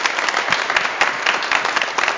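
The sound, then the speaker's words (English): A church audience applauds newly accepted members, a dense, steady burst of many hands clapping at once that holds at an even, loud level throughout. “Well, let's give them a round of applause.”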